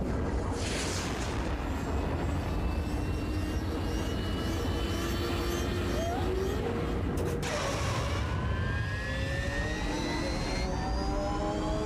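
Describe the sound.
Racing engines roar together at a race start in a loud, continuous din. Whining engine tones rise and glide through it, and one sharp sweep stands out partway through.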